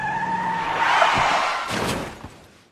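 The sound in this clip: Car brakes and tires screech sharply as a car drifts in an arc across the middle of a road, a loud sustained squeal that swells and then fades out.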